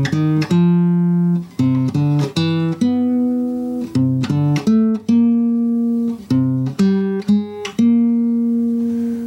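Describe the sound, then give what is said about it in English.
The four modes of a four-note scale, each started from C, play as a sequence of loud, sustained, buzzy electronic tones, one note after another in four groups with short breaks between notes. “So the four modes of the scale actually sound like this.”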